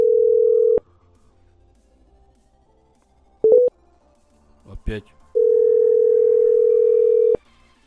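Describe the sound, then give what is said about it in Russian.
A Russian telephone line sounds a steady, continuous dial tone that cuts off. A few short tone blips and a brief burst of noise follow as the number is redialed, then the same flat tone returns for about two seconds. “Сбой какой-то. Ага, сейчас еще раз наберу.”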